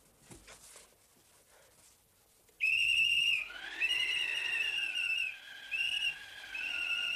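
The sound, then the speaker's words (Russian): A whistle taken from a pocket and blown: after a quiet start, a loud, shrill sustained tone begins and holds, with a few short breaks and slight bends in pitch. “Достает из кармана свисток.”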